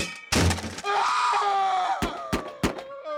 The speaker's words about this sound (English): Sometimes you gotta clobber these thugs with the potato sack of the Fourth Estate.